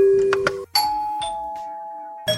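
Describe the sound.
A doorbell chimes on Halloween: sustained electronic ding-dong tones, a higher note followed by a slightly lower one, each ringing out and fading, with brief clattering knocks around them.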